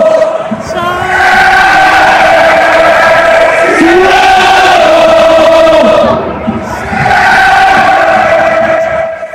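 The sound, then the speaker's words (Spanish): A large crowd of Seattle Sounders soccer fans sings a welcome chant together at a match. The loud, sustained singing comes in two long phrases, separated by a brief dip. “Y estos son los Sounders. Escuchemos la canción de bienvenida.”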